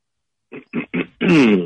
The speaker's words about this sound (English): let's get that throat cleared